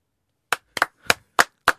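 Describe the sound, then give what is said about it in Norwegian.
A few slow, sharp hand claps, spaced unevenly and standing alone against silence, offered in the studio as applause for a first homemade fårikål. “Det fint at jeg venter på applaus.”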